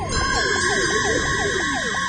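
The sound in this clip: Siren of a police car turning down a hillside onto a road: a rapid yelping wail of quick, repeated falling pitch sweeps, steady and loud over a constant tonal drone.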